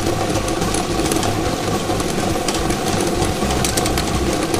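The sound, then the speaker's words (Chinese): Steady mechanical whirring and dense rattle from a lottery draw machine as it spins 30 numbered balls at speed for a 3D game draw. The noise stays loud and even throughout, with no talk. “摇奖机正式启动了。 3D 游戏的30个号码球在摇奖机当中飞快地旋转着”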